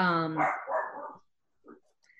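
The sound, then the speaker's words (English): A dog barks once in a short harmonic burst that quickly fades, followed by a couple of faint, brief noises, all fairly quiet. “sorry for my dog”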